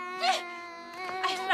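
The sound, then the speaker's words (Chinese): A young child cries and wails in a few strained, high-pitched bursts with whimpering between them, loud and unbroken by talk. “不哭了，不哭了！”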